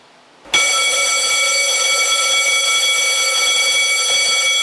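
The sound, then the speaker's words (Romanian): A fire station alarm for CBRN firefighter crews in Jilava, Romania, cuts in abruptly as a loud, steady, high-pitched electronic tone that holds without a break to the end. “Aceasta este alarma pe care o vor auzi pompierii nou mutați în subunitatea pentru echipajele CBRN în momentul în care va fi nevoie de intervenția lor.”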